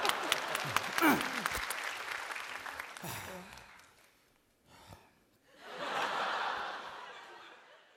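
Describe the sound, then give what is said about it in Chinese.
Audience applause at a comedy sketch performance, starting with scattered laughter and voices, then a short lull, then a fuller burst of clapping that swells and fades. “你先鼓掌。”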